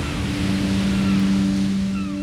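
Ocean waves at sea tossing a lone shipwreck survivor: a steady, rushing wash of water noise with a low droning hum running underneath throughout, no voices.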